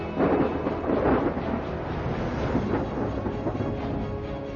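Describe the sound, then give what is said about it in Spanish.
Rumbling thunder and rain from a monsoon thunderstorm over a canyon in Arizona. A continuous, broad, deep roar swells heavily twice near the start, then settles into a steady wash. “El cielo amenazante mata el calor ardiente de las paredes del cañón cuando la temporada de monzones llega a Arizona.”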